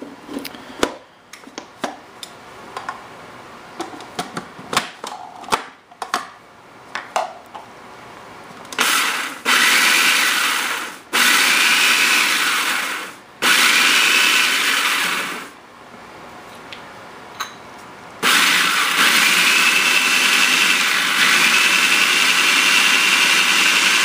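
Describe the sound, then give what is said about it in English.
Loud blender motor whirs in four sustained runs as it blends a dry mixture while olive oil is added little by little. Scattered clicks and knocks come before the first run, and there is a short pause before the final, longest run. “Starting to blend this, and then we're gonna add little by little, we're gonna go ahead and add some olive oil in there”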